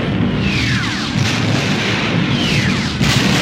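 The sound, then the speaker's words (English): A chain reaction of internal explosions in a space station's core: a dense, continuous rumbling roar with heavy low-end booms, cut through by a few falling whistling sweeps and brighter bursts near the end. “The blast started a chain reaction of internal explosions.”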